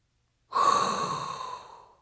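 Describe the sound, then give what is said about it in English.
A single deep breath is drawn in, an airy hiss lasting about a second and a half that starts strong and slowly fades, alone. “there's only one thing left to do, and that is inhale a hot breath”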